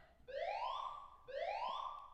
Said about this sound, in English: All right, if you guys can hear that, that's a fire alarm.